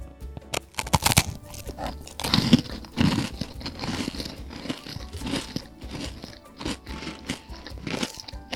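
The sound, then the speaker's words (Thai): A crunchy, sugar-sprinkled snack being bitten and chewed: a few loud, sharp crunches at the start, then a long run of softer, crackly chewing crunches. “กรอบมากเลยอ่ะ ถ้าไม่กรอบเนี่ยไม่อร่อยเลยนะ”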